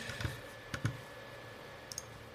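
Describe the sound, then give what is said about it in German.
Faint computer mouse clicks come while someone browses Magic: The Gathering cards, a few soft, sparse taps spread unevenly over a quiet background. “Jetzt, wo ich mich hier durchklicke, erzähle ich euch immer mal zwischendrin auch ein, zwei Dinge.”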